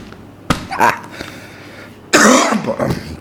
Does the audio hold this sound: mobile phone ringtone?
no